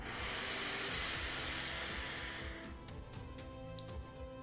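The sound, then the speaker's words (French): A deep inhale through the nose during a guided breathing exercise: a steady, hissing breath that lasts about two and a half seconds, then trails off into a quieter tail with a few faint clicks. “J'inspire profondément par le nez.”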